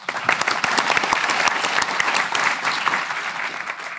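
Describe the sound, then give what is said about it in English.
Audience applause at a history program, dense and continuous clapping that holds at an even level and eases slightly toward the end. “And let's give them all a hand.”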